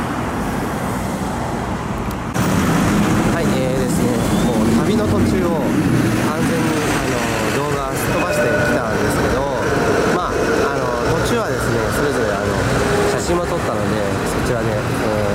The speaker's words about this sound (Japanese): これからまた運転して、えー、カニバを出て、えー、メルボルンに向かいます